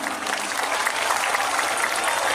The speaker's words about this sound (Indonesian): tepuk tangan untuk Yaka.